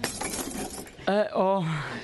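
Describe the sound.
A ceramic bowl breaks with a harsh, scattered crash lasting about a second, followed by a voice crying out loudly.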